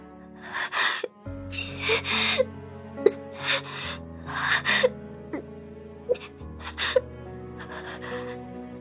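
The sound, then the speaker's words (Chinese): Rapid, trembling gasps and shaky breaths from someone struggling to speak come in many short uneven bursts, with sustained background music underneath. “安曼的呼吸忽然间急促起来，带着颤音，又像是呵呵的努力想要说话的样子。”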